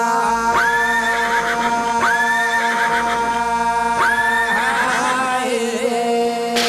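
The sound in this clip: A horse neighs in three loud, rising whinnies spaced about two seconds apart, over a steady droning tone that continues throughout.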